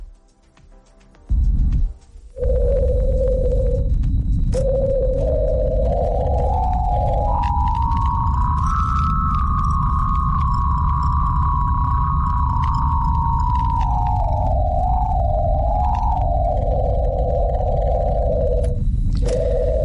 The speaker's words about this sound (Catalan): I d'això era com sonaria, segons la NASA, l'atmosfera de Venus.